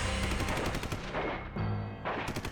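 Heavy gunfire in a gun battle involving semi-automatic assault rifles, rifles and 12-gauge shotguns: many rapid, loud shots blur into continuous bursts, with only a brief thinning of the noise partway through.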